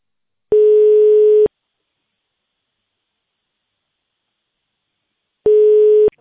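Two long, steady telephone ringback tones sound on a call to a district federal tax inspectorate office while the caller waits to be connected. Each flat, mid-pitched beep lasts about a second, with a long silent gap between them and no voices.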